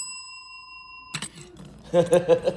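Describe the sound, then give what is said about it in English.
A single ding of an order bell rings out as a bright, pure tone with high overtones that fades slowly, then speech follows. “that's my order bell. Order up? No. I have a reason why this is here, and I'll let you know why later on.”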